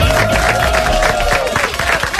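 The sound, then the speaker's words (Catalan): An audience breaks into applause and cheering for a man at a live event, a loud, dense burst of clapping with crowd noise over a fading tone, lasting about two seconds without speech. “Un aplaudiment pel gran Marc Bala.”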